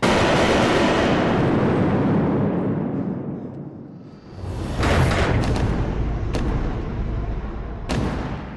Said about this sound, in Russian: За углом слышны выстрелы.